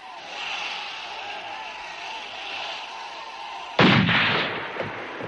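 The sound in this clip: A single pistol shot is fired near a train. A loud, sharp crack with a decaying tail cuts through a steady background rumble.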